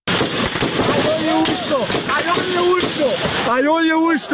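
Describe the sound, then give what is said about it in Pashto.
Gunfire at a protest in Tirah valley, Khyber district, reportedly from security forces shooting at demonstrators: several sharp, loud cracks ring out over a constant din of shouting crowd voices. “د ډزو دا وازونه د تیرا میدان د پیخي دي چې په مبینه توګه امنیتي ځواکونو په مظاهره چانو باندې ډزې کړي”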